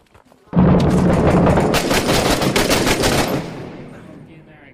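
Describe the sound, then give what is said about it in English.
Mortar explosions and heavy gunfire in a war video game set in Fallujah: a sudden loud blast opens a dense, crackling roar of rapid bursts that holds for about three seconds, then fades into a lower rumble. “Those are mortars, I want to say, so we might want to get inside this building, low side.”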